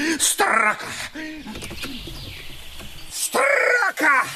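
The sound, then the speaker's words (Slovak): A magpie calling from its nest in an oak tree: harsh, chattering bursts at the start and again near the end, with quieter, scratchy sounds in between. “Nie. Zasa tá straka. To sa nedá vydržať. Tu sa jeden nevyspí.”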